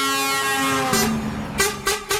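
A vehicle horn honks with one long, steady, tonal blast, followed by a few shorter, louder bursts.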